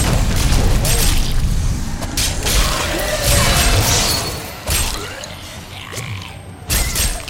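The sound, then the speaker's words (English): Video game combat effects for a leap attack: loud clanking and creaking mechanical noise with a few heavy booming impacts in a dense, continuous mix. “Leap attack!”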